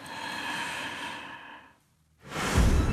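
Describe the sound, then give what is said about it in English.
A deep breath drawn in through the nose and mouth rises as one loud, airy inhale near the end, after a short quiet gap that follows a fading sustained sound. “Så hvis du ligesom lukker øjnene nu, ja, og prøver at trække vejret sådan dybt ind.”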